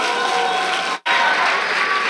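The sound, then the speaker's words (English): Dense, steady applause rises from an audience welcoming a speaker at a Chi Alpha University of Virginia gathering. The sound is loud and even throughout, broken only by a very brief cut midway. “So will you give a great, big, warm Chi Alpha University of Virginia welcome to Alex Rodriguez.”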